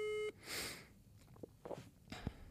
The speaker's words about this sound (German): Ich rufe jetzt Joko an. Ruf den mal an.